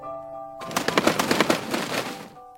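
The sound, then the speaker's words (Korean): Loud, rapid flapping of a thirsty pigeon's wings: a dense run of rhythmic whooshing beats lasting about two seconds, set between soft sustained tones. “그래서 비둘기는 요란하게 날개를 퍼덕이며”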